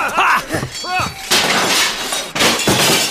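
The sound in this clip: Glass windows shatter during a pirate attack, two loud, noisy crashing bursts following a few seconds of excited voices.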